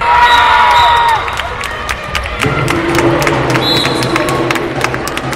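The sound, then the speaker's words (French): Spectators cheer and clap at a women's handball match between JDA Dijon and Toulon at the Palais des Sports Jean-Michel Geoffroy, loud whoops and shouts over many sharp claps and thuds, the roar dropping somewhat after the first second. “c'était hier en fin d'après-midi au Palais des Sports Jean-Michel Geoffroy. Les joueuses de la JDA Dijon Handball recevaient l'équipe de Toulon devant leur public.”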